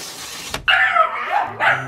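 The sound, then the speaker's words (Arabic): A dog in Japan barks in protest at being filmed: a sharp, high-pitched bark and a drawn-out yelping cry, then one more shorter yip, loud and alone. “خلاص خلاص يا عم. بيعترض. الكلب في اليابان له حق انه يعترض انه ما يتصور.”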